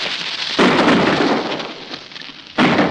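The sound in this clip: Gunfire in a radio drama as soldiers fire on escaping convicts: two loud booming blasts, each followed by a broad rumbling roar that slowly fades.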